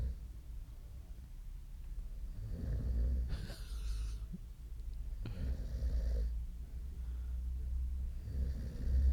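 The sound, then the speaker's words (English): Several people snoring while sleeping on floor cushions, a low, steady rumble of breathing broken by a few harsh, rasping snorts, heard alone without talk. “It's like a wild boar, a silverback gorilla, and a baby, I think, snoring away.”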